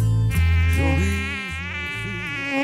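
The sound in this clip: Mosquito buzzing close to the ear: a steady, continuous whining drone with a slightly wavering pitch that dips and recovers, heard alone without voices.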